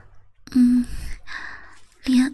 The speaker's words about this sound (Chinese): 也开始啊，喘着粗气啊